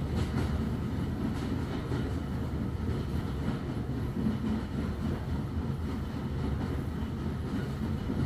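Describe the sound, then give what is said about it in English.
A train rolls along the tracks with a continuous, dense rumbling roar that stays steady and loud throughout, with no voices. “nearer and nearer it gets. As the train edges along the tracks,”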